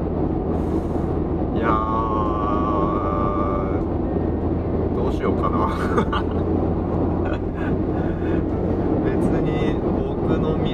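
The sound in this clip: Steady, loud road and engine drone from a car travelling on a highway, continuing without a break for the whole clip over a low rumble.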